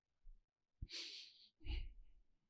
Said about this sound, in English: it sounds like I'm huffing and puffing. I'm not. I'm just breathing.